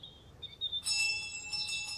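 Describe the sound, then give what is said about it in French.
A small bell on a garden gate tinkles with high, clear ringing tones. A few light strikes ring on and overlap, faint and alone, after a quiet start. “La clochette à la grille du jardin.”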